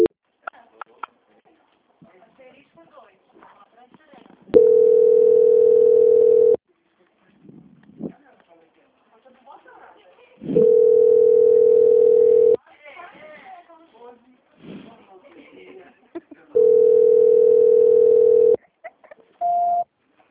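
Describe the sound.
Telephone ringback tone while a call is being transferred: three long, steady low tones of about two seconds each at even intervals. Faint talk fills the gaps, and a short, higher tone comes at the end.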